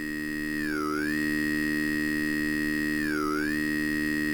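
Synthesizer vowel sound with pitch modulation: a steady, buzzy harmonic drone whose bright vowel-like resonance twice sweeps down and back up in smooth ramps. It plays alone at moderate level.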